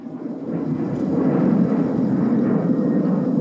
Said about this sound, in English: That was a plane.